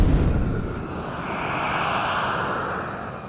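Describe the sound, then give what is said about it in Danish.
Loud, steady roar of an airplane engine being given more throttle to climb higher, a dense continuous drone that holds for several seconds on its own without talk. “Lad os give den lidt mere gas og flyve endnu højere op.”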